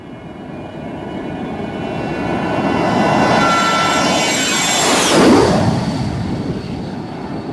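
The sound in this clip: Airplane engines roar as the aircraft takes flight, a broad rumble that swells steadily and peaks near the end, with a high engine whine that drops in pitch as the plane goes by.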